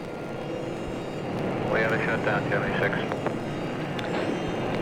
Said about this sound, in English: Ignition. Ignition sparks. The engines rumble.